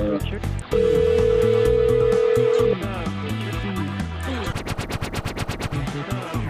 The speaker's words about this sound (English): Let's get some dialing music going here.